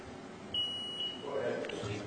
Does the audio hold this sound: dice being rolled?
no